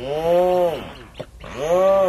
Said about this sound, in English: This audio comes to us from the Cornell Lab of Ornithology. It's the sound of a rhinoceros auklet. So named because of a little horn on its beak.